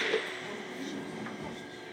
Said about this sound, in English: Kelvin Hall Station, I think, in the underground. Quite a slow train today.